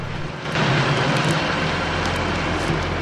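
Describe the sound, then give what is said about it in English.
A car moving off along a street: a broad engine rumble swells suddenly after a quieter start, then holds steady over a low drone. “Finch attempts a smile and the car moves off.”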